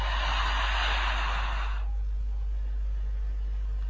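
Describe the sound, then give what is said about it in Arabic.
One long, loud, airy breath is drawn in for almost two seconds, then it cuts off into near silence. “نهدى كده. وناخد نفس عميق.”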